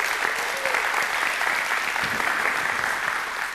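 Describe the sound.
Loud applause from a church audience welcoming a campus that has joined the service, a dense, steady wash of clapping that holds at an even level throughout.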